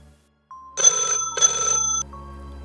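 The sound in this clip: A telephone rings with an incoming call: a steady tone, then two short bursts of buzzy trilling ring, loud and alone, with a final click as the tone cuts off.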